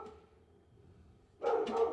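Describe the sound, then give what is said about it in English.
Dogs barking in a few short, faint bursts cut in near the end after a quiet stretch of low background hum. “dogs barking, hopefully they'll shut up in a minute”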